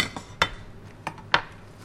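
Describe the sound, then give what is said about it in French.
Knife cutting Chinese cabbage into 3 cm pieces while vegetables are prepared, heard as a few sharp, crisp chops at uneven intervals, fairly quiet, with soft rustling between them. “Couper chou chinois. Hop. Couper en 3 cm.”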